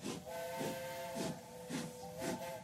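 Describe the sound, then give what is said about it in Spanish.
A steam locomotive starts off with a jolt, its sustained whistle tone sounding over regular, evenly spaced bursts of hissing steam, fairly faint throughout and without voices. “En cuanto subieron al tren, sintieron una sacudida y la máquina se puso en marcha.”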